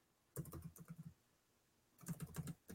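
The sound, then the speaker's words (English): Computer keyboard keys click as a credit card number is typed in: two brisk bursts of crisp, fairly faint taps separated by a pause of almost a second, with one last click at the end and no talking. “And if anybody could tell those clicks, they'll know what my credit card number is.”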